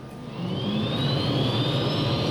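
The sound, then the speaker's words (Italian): Helicopter engines start up ahead of a presidential flight. A steady, loud roar runs underneath a thin turbine whine that climbs slowly in pitch, continuous throughout, with no voices. “il passo svelto si dirige verso l'elicottero. Il pilota, vedendolo avvicinare, fa un grande respiro profondo e accende i motori.”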